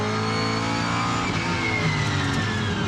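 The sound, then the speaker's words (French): A car engine revs hard under acceleration as the car drifts in third gear on a dirt circuit, with no ABS and the tyres locking. The engine note is loud, continuous and rough, with a strong mid-pitched drone that holds steady throughout. “un peu gros bruit de boîte, hop, j'accélère, la caisse part en drift direct.”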